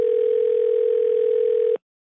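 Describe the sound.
A telephone dial tone plays while a call is being placed: a single steady, loud, mid-pitched tone holds evenly for nearly two seconds, then stops abruptly into silence.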